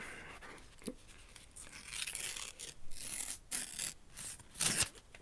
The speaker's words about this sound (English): Duncan, I'm just going to open the envelope here.